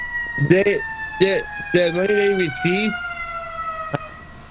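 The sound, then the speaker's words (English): Siren passing outside, its steady high tones sliding gradually lower in pitch as it goes by, sounding beneath people talking over it. “I was just waiting for that siren to stop.”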